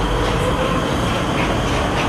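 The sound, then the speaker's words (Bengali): A metro train pulls out of a station with a loud, steady rumble of wheels and carriages, a broad roar from deep bass to hiss that continues unbroken, with no talking. “মেট্রোটা শব্দ করে বেরিয়ে গেল।”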